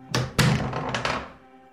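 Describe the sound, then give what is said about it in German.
A door opens with a few heavy wooden thunks and clunks, two strong knocks early and a softer pair later, each trailing off into a faint decaying rumble. “Öffnet die Tür!”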